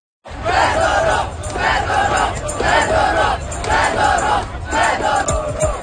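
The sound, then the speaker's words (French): Thousands of street protesters chanting in loud, rhythmic crowd bursts that repeat steadily several times, voices massed together with no single speaker standing out. “Des milliers de manifestants, hein, vous les entendez, sont descendus dans les rues de plusieurs grandes villes du pays pour protester contre son limogeage.”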